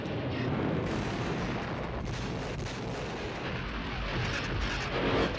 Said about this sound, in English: A lot of things are exploding.